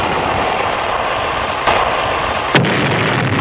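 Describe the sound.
An explosion sound effect for a shot fired at a ship: a loud, sustained roaring blast with a slight jolt partway through, then its hissing top cuts away abruptly near the end.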